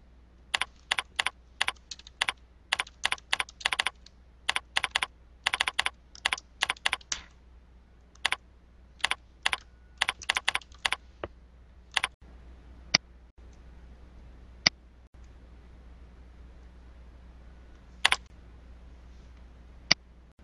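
Typing on a computer keyboard to enter a name for a new circle: quick clusters of crisp keystrokes in irregular bursts, followed later by a handful of sparse, isolated key clicks with longer pauses between them.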